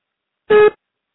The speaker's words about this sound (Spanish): Deja tu mensaje después del beep.